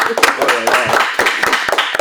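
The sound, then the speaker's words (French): A small live audience gives scattered, echoing claps to welcome a guest, with talking voices running over the sharp, uneven hand claps. “Pour applaudir un invité. C'est beau, ça résonne.”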